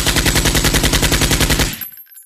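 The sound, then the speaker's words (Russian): Kalashnikov rifle emptying a full magazine over the heads of patrons in a log-walled drinking hall: one loud, unbroken burst of many rapid shots in an even rhythm that stops abruptly, leaving a brief fading ring. “выпустил весь рожок поверх голов посетителей. Грохот выстрелов заложил уши”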